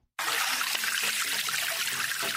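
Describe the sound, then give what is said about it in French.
Water flows from a developed spring used as a village water supply point, a bright, continuous splashing trickle that starts abruptly and stays at an even level throughout. “L'eau qui coule de source ici est le seul point d'approvisionnement pour ces petits-enfants dont l'âge varie entre 7 et 9 ans.”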